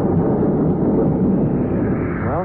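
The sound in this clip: Deep, sustained roar of a spaceship blasting off in a radio drama, a dense rumbling blast that holds loud and steady throughout, with a few faint rising tonal sweeps near the end.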